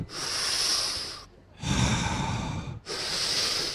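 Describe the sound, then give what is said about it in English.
Children take deep breaths together: three long, airy, hissing breaths in and out, each lasting about a second with short gaps between, fairly faint and without talk. “And I want you to show me how to take deep breaths.”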